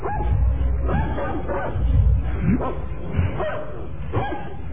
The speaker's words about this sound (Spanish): Aunque esos ladritos me ponen nervioso.